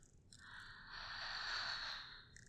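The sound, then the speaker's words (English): A deep breath from someone lying on a bed with eyes closed in a relaxation exercise: one long, airy, hissing breath that swells, holds, and then fades. It is heard alone, with no talking. “Let's start by taking some deep breaths.”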